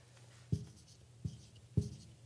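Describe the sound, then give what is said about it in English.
Handwriting with a pen on paper during a spoken lesson: three short, faint scratching strokes come at uneven intervals, each a quick tap followed by a light scrape, in an otherwise quiet pause. “sorry, I got to finish writing.”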